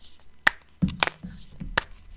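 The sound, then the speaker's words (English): A lid is opened, giving a few sharp knocks and clacks with softer rattling between them, irregularly spaced and fairly quiet. “That's an instrument. We got percussion. That's just opening the lid.”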